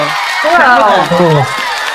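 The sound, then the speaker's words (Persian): Audience cheering and screaming with excited whoops, several voices shouting over one another in rising and falling bursts, loud and continuous through the short moment. “به افتخار خودتون کف و سوت و جیغ و هورا هورا.”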